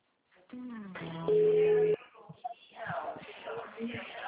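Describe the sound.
Electronic telephone tones after a dropped call: short warbling tones lead into a steady, level beep, and then a voice talks.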